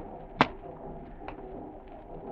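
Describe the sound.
A match is struck in a large vaulted cavern. One sharp, bright scrape stands out clearly near the start, and a fainter, shorter scratch follows about a second later against a quiet, steady background.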